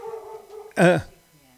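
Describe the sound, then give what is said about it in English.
A single loud dog bark, set off by a delivery arriving outside the house: one sharp, harmonically rich yelp with a falling pitch, standing out clearly against quiet background sound. “But the dog's barking. The dog's barking, but it ain't for us.”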